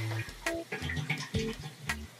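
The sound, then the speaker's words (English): Water refilling a toilet tank, a soft rushing and gurgling flow broken into uneven spurts with shifting tones, fairly quiet throughout. “Yeah, I love how the sound of the toilet filling kind of, the pitch rises, you know, as it gets to the top of the tank, you get that little gurgle at the end.”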